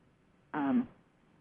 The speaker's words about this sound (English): Making me burp, actually. Just a sec.